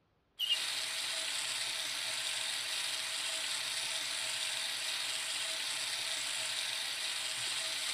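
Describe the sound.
Running water pours steadily to rinse hair, switching on abruptly after a brief silence and then holding an even, bright hiss to the end with no voices.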